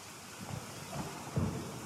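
Rain and bad weather outside at Wimbledon during the tennis make a faint, steady hiss of falling rain, with a couple of soft low rumbles rising briefly out of it.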